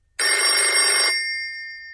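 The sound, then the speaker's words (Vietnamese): A shrill telephone bell rings in a wartime underground bunker: one loud, bright burst of about a second, then a high ringing tail that fades gradually. “Tiếng chuông điện thoại bỗng đổ lanh lảnh.”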